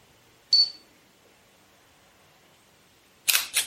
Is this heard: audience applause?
no